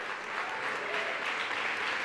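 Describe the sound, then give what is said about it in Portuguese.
Church audience applauding the Lord: a steady, even wash of clapping hands that holds at an unchanging level throughout. “Você quer aplaudir ao Senhor?”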